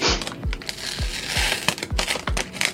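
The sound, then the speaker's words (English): A Tyvek envelope used as protective packaging crinkles and rustles while being handled during the unboxing of an Amiga 3000 computer, with irregular papery crackles broken by several soft, dull thumps. “That was just a Tyvek envelope that I wanted to protect it in.”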